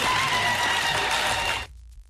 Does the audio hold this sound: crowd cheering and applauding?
yes